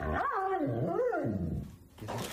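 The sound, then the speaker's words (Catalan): A dog's drawn-out, wavering whine-growl, loud and harmonic, rising and falling in pitch over about two seconds before a brief burst of noise. “És el seu gos.”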